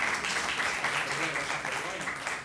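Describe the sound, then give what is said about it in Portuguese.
Applause from a class of students for a classmate, a steady wash of clapping that holds for the whole span at moderate level, with voices mixed in. “Palmas para ele mandou bem.”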